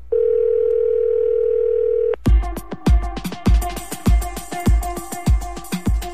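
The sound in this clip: A steady, even telephone dial tone holds for about two seconds, then cuts off into a busy, uneven run of many short percussive clicks and tones as a number is dialed.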